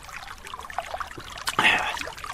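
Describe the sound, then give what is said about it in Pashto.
Sweet soda is poured into a drink, giving a soft, uneven trickle with faint splashes before a louder, fizzy gush near the end. “دا فانتا ورته وایي که مانتا؟ دا خوږې اوبه هم ورپسې وغړپوه.”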